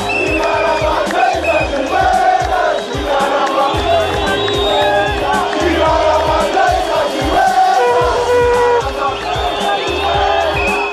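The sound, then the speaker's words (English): A crowd celebrates in Harare as Robert Mugabe resigns, a loud, continuous mass of cheering, shouting and ululating voices with whoops rising over the dense roar throughout. “Huge celebrations in Harare as Robert Mugabe, Zimbabwe's president of 37 years, resigns. We'll have the latest from the Zimbabwean capital”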